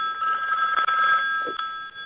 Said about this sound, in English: That's my wife's phone. Sorry about that.